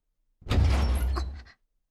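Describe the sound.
A door opens onto a rooftop with a single heavy scraping rumble that lasts about a second, thick in the low end, then stops abruptly.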